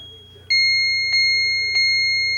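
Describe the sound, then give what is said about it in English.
An autochron clock chiming: three bright bell tones, evenly spaced, each ringing on with a long sustain over a faint low steady hum. “It will chime the hour, of course, and the half hour, and the half hour it goes bing bong. And that is the autochron.”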